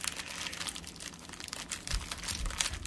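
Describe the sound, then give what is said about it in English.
A taped package holding cables being opened: dense crinkling and crackling of tape and packaging, with many irregular sharp bursts throughout. “Let's see if we can get this open. It's taped.”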